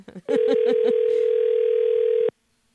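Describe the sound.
A telephone ringback tone plays while a call is being placed: one loud, steady, even tone that holds for about two seconds and then stops abruptly into silence.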